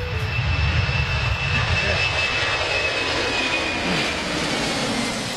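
Airplane engine droning overhead: a steady, loud roar with a thin, faint whine running through it for several seconds, with no talk.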